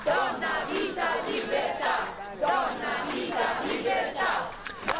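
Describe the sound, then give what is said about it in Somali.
A crowd of protesters at a rally in Rome supporting Iran chants a rhythmic three-word slogan, many voices rising and falling together in loud, repeated bursts that continue throughout. “kulan taageero loogu muujinayo oo ka dhacay caasimadda talyaaniga ee romena dibadbaxayaashu waxa ay ku qaylinayeen haween nolol iyo xorriyad”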